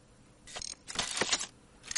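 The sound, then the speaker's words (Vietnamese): Mechanical clattering of battle armor parts: a few short, faint metallic clicks and rattles come in quick bursts, with no voices. “Tiếng máy móc lách cách vang lên.”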